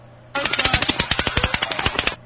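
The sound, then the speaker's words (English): Rifle rounds striking pavement make a rapid burst of many sharp, crisp cracks with bright high-pitched edges, packed tightly together for about two seconds before stopping abruptly. “Now I'm going to play for you just the sound of rifle rounds hitting the pavement. I want you to notice the high frequency sounds in that sound.”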